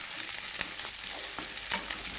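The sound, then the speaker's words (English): Halved Brussels sprouts fry in a heated pan with a steady, bright sizzle, punctuated by a few soft clicks and knocks. “And then I'm going to put the heat on over here and I'm going to fry them just a little bit.”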